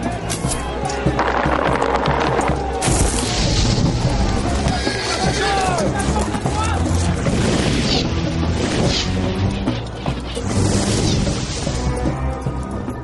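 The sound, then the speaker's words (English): Crashing, booming impacts of a siege engine bombardment as Crusader siege engines batter the walls of Acre. The impacts are loud and dense, with many overlapping hits running continuously throughout. “Siege engines brought in pieces and then reassembled in the east allowed the Crusaders to intensify their bombardment of Acre and to get right up to the wall.”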